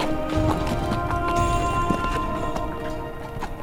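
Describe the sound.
A horse's hooves clip-clop steadily as a courser is ridden through woods. Many beats follow in a regular rhythm over a constant background.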